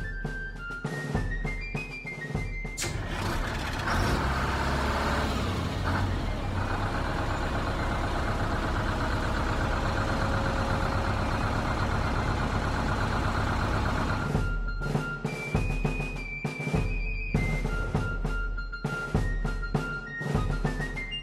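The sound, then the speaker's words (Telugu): A bus engine idles as a loud, continuous rumble with heavy low-end drone, overlaid by repeated high electronic beeps that come and go throughout. “అరే, bus ఎందుకు కదలడం లేదబ్బా?”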